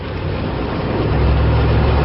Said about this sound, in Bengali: কাদা রাস্তা দিয়ে লাফাতে লাফাতে জিপ ছুটে চলল ঘুরঘুটিয়ার দিকে।